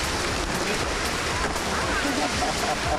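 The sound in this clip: Sea waves at a beach in Kilyos, on a somewhat choppy day, make a steady, dense rushing wash of surf that stays at an even level throughout.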